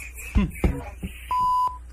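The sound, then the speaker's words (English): A censor bleep masks a swear word: a single steady, mid-pitched electronic tone about half a second long, following a few brief bursts of speech. “Oh, I'm glad they censored the shit.”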